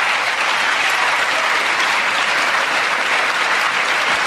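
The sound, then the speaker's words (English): Applause from Democrats cheering their party's man after a political speech about refusing to default on the debt: dense, steady clapping from a crowd, loud and even throughout with no voices. “and of course that's the Democrats applauding their man.”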